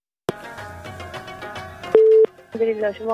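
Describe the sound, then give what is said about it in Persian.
A telephone line tone sounds as a radio host connects a caller: a single steady, mid-pitched tone held for a moment, with voices before and after it. “میریم نخستین تماس را وصل میسازیم، ببینیم کدام عزیز ما هست، از کجا تماس گرفته.”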